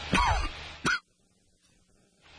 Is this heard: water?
no